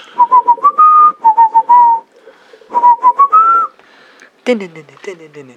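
Someone whistles a tune in clear, bright notes, in two short melodic phrases separated by a pause. A brief voiced sound follows at the end.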